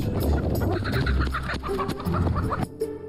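Chickens clucking on a mountain poultry farm, dense overlapping calls from a flock forming a continuous busy chatter with occasional louder squawks over a steady low rumble.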